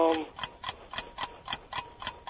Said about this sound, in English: Oh, there's the timer